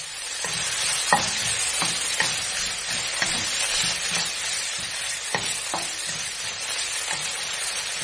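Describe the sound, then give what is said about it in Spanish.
Mushrooms, pepper and onion fry in a casserole dish, giving a steady, dense sizzle throughout. Sharp clicks and scrapes from stirring break through at irregular moments, and no voices are heard. “Y ahora en esa misma cazuela agregamos los champiñones, el pimiento, la cebolla y los dejamos dorar de 5 a 8 minutos.”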